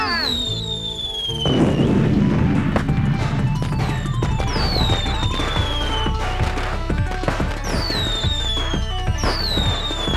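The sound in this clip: Fireworks rockets launched in a radio play: many shrill whistles sweep downward in pitch over a dense, continuous crackle of pops and bangs that keeps going throughout.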